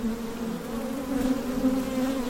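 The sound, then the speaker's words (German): Thousands of honeybees buzz around wooden hives at an apiary near Düsseldorf. Their low, steady, dense hum continues throughout with slight swells and no voices. “Lange Reihen mit grün-roten Kästen stehen auf dem Gelände vom Bienenland in Willich-Anrath bei Düsseldorf. Um die Holzkästen schwirren tausende Bienen.”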